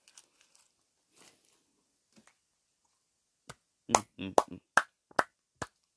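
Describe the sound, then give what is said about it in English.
Sharp hand claps, a short run of single dry claps with uneven spacing in the second half, preceded by faint soft noises and near silence. “some hand claps.”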